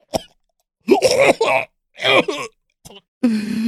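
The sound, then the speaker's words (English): A person chokes and coughs on pasta stuck in the throat. A series of strained, voiced gagging bursts and groans are split by short silences, ending in a rough, rasping cough. “I'm choking. I know it's all just stuck in my throat. Oh, I can't manage this pasta.”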